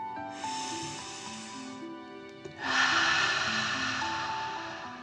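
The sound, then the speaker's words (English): Deep, slow dragon-like breathing during a relaxation exercise: a long hissing inhale, a pause, then a louder and rougher drawn-out exhale, all over soft sustained musical tones. “Relax into the soft green grass and breathe like a dragon, in and out.”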